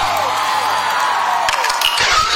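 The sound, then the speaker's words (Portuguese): A studio audience cheers and applauds a guest on a morning music show, a dense, loud wash of clapping and whoops that holds steady from start to finish. “salva de palmas para o Anderson Salvador!”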